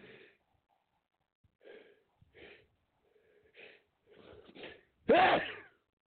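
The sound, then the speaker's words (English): A sneeze builds through several soft, breathy, halting intakes spaced apart, then bursts out in one loud, sharp blast with a short falling tail. “All that nonsense for one sneeze.”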